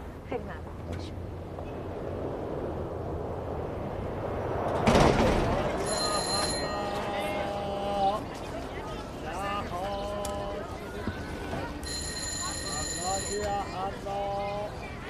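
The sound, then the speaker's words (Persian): A doorbell rings repeatedly in bright, tonal bursts, one set around the middle and another near the end, with shorter chiming tones between them over a steady background. “چرا انقدر زنگ میزنی”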